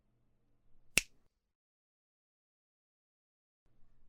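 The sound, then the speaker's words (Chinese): A single crisp finger snap, sharp and bright, standing alone with only a faint low hum before and after it. “在一声响指过后，你会感觉到前所未有的畅快。”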